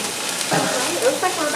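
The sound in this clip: An onion fries in a pan for stuffed roasted bell peppers, giving a steady, soft sizzle with talking over it.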